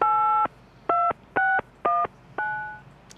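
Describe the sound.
Five keypad beeps as a telephone call is dialled, each a clear steady tone with uneven gaps between them. The last beep fades out, over a low background hum.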